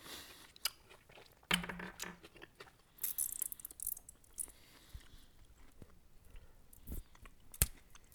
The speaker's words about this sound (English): It's like a leathery grape. It is like a leathery grape. I'm gonna eat one.